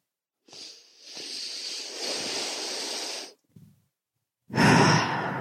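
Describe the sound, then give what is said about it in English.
Deep breathing during a standing grounding meditation: one long, steady airy inhale lasting about three seconds, then a short pause and a louder, breathy exhale. “And for a moment, just stand there. Take a few deep breaths in.”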